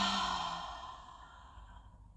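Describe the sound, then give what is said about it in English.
Slow exhale during guided womb-breathing meditation, a single soft breath out that starts fairly clear and fades away gradually into quiet. “Breathe out through your womb. Breathe in through your womb. Breathe out through your womb.”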